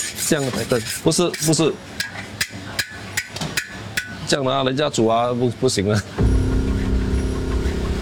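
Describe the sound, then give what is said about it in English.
Repeated scraping and rubbing of a utensil stirring food in a pot on electric heat to keep it from burning, with a steady run of rasping strokes under people talking and a denser noisy stretch at the end. “最基本的，你要去，因为它电是烧嘛，你要去，不要给它烧焦。那你煮了之后就全部烧焦的，我们煮了没有烧焦的，所以我们要用这个去 stir”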